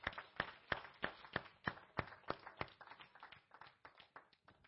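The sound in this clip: A church audience claps to welcome guests, with many sharp, distinct claps at a brisk, even pace that gradually soften toward the end.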